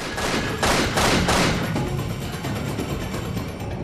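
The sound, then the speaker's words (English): Bullets exploding inside a tin near an outbuilding: a dense, rapid crackle of popping bursts, loudest near the start and continuing steadily to the end. “While the terrorist is distracted by the exploding bullets from the tin, Jack”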